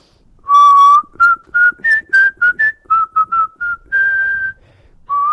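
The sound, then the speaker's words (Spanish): A person whistles a song tune, a clear bright melody of many short notes between a few long held ones, alone with no talking. “imagínate que va a silbar”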